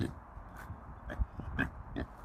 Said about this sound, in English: You can hear the pigs in the background.